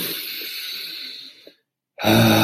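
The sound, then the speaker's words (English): A father imitates slow labour breathing to set the pace for a woman giving birth: one long, breathy exhale that fades into silence, then a sudden louder breathy sound begins. “I was trying to set the tone of the breathing for her. So I was doing like,”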